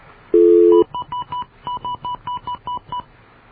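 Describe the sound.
Touch-tone telephone dialing as a phone number is keyed in: one longer steady tone, then a quick run of short, clean beeps in small bursts, loud and alone.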